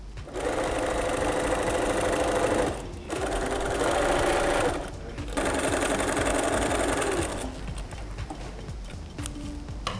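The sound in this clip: A sewing machine runs while stitching canvas or cotton fabric, its steady mechanical whir coming in three sustained bursts separated by brief pauses, followed by a quieter, more uneven stretch of running.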